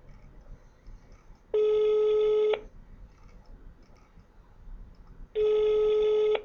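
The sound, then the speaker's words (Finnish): Telephone ringback tones sound as an outgoing call rings: two steady, loud electronic tones of about a second each, separated by a few seconds of faint line hiss. “niin pirautetaan tuolle salikaverille, tuolle Irmelille. Otetaan puhelu Irmelille.”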